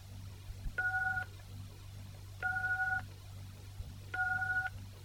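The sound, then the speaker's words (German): Telephone keypad tones enter a mailbox number on an automated voicemail system: three separate dual-tone beeps, each about half a second long, evenly spaced over a steady low hum. “Bitte geben Sie die Mailbox-Nummer ein, die Ihr Systembetreuer spezifiziert hat.”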